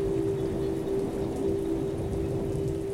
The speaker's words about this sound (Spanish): suena el sonido de la lluvia